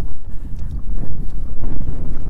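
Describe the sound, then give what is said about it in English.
Loud wind buffeting the microphone in a deep, rumbling roar that swells and dips in uneven gusts throughout, with no voices. “Oh, there's the wind. Yep. Oh, no. It's not going to disappoint us. No. It really blows.”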